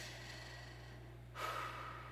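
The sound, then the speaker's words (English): A single deep breath drawn in, soft and airy over a steady low hum, quiet and with no talk. “take a big deep breath. Actually, do that 3 times.”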